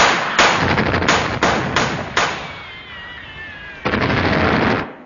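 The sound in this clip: Several loud gunshots are fired from a defended wall at a man outside, each a sharp blast with a ringing decay at irregular intervals. A wavering whine is heard between the later shots.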